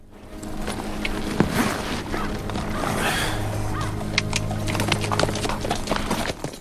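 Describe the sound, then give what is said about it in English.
Hooves of a horse clatter steadily as it sets off at a canter under a rider across rocky, scrubby ground, giving a continuous run of muffled thuds at moderate loudness. “Joshua sets off at a canter.”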